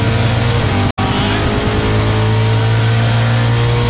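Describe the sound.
A Zephyr wagon's engine winds out in fifth gear during a drag run toward the finish line. The drone is loud, steady and strongly tonal, broken by one brief cut near the start.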